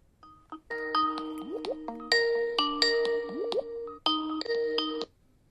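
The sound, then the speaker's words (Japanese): A Skype call ringtone plays while a call connects. Bright, bubbly chime tones with quick upward-sliding blips come in three ringing phrases, each separated by a brief gap, with no voices. “スカイプ繋げてみましょうか。”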